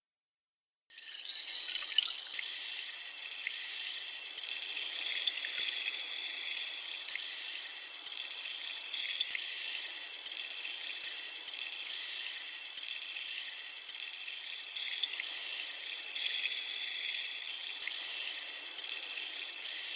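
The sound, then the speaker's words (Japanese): Water streams steadily as an ear is washed in an ASMR session, a soft, continuous, even hiss with faint drips that starts after a second of silence and runs to the end with no talking. “それでは、反対のお耳も洗浄していきますね。”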